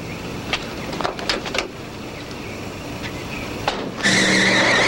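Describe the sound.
A car skids to a halt with its tires screeching, a loud sustained high squeal at the end after a few short scrapes and clatters over steady noise.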